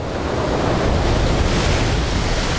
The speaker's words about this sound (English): Other marine iguanas basking on rocks are splashed by the huge waves.